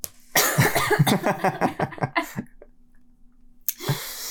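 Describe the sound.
Coughing from a tickle in the throat: a rapid fit of many sharp, raspy coughs in a steady rhythm, then a short silence before one more cough breaks out near the end.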